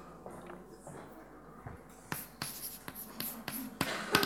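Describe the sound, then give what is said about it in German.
A pen writes during a lecture as an example is set down, producing faint scratchy strokes that grow busier and more clearly separated in the second half, with no talk. “Dieses Beispiel ist nicht wirklich wahnsinnig clever, aber ich schreibe es trotzdem mal auf.”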